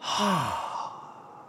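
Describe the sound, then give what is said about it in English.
A slow exhale through the mouth during a calm breathing exercise, heard as a loud, breathy sigh. A brief low voiced note falls at the start, then the airy rush fades gradually. “Breathe in through our noses. Then slowly breathe out through our mouths.”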